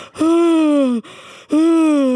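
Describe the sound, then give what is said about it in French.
A person yawning aloud: a long, voiced groan that sinks slowly in pitch, eases into a softer stretch, then swells into a second loud, drawn-out exhale. “Ça m'a fait bailler.”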